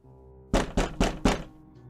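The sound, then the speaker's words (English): Four firm knocks on a door, evenly spaced and loud, standing out sharply over a low steady hum, then the hum continues alone. “First, I'm gonna knock. You knock.”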